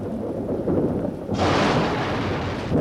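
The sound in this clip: Thunder rumbles after a lightning flash. A deep, rolling rumble swells, then a louder, broad hiss joins about halfway through and continues to the end, with no talk over it.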